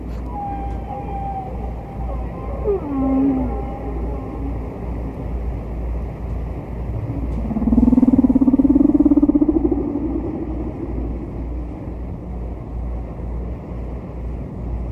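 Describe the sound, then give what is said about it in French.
Distant humpback whale song from an old vinyl record: a few drawn-out moaning calls, one sliding downward early and a louder, rising low moan later, over constant low hum and faint surface hiss. “écouter un autre chant du disque de Payne et McVeigh, la plage 4, la baleine distante de la face A, comme on disait à l'époque, du disque.”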